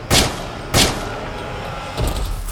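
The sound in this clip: Gunshots: two loud, sharp bangs in quick succession, then a softer burst near the end, over a low background rumble.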